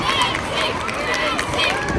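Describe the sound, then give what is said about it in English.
Schoolchildren lining a street cheer on a passing runner who is covering a marathon-length distance every day, a continuous, loud wash of high excited voices and shouts. “Just one of the many streets which schoolchildren line to cheer Lexi on.”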